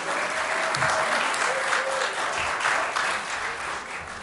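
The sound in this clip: Steady, dense applause from an audience welcoming bluegrass musicians to the stage, holding at an even level throughout.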